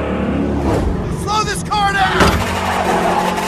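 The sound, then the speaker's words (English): A car engine revs up in a film scene where the brakes have been cut and the car is losing control, a loud roar with a few rising whines and voices over it. “it sounds like the car is revving up as if the foot is on the gas”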